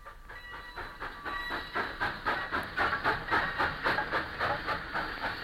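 Steam train puffing along the rails, a steady, even run of rhythmic chuffs with hiss and a faint clickety-clack, growing slightly louder and holding a regular beat throughout.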